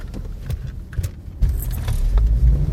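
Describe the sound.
A car drives off, a few scattered knocks and rattles giving way to a low engine rumble that swells and holds steady to the end, with no talk.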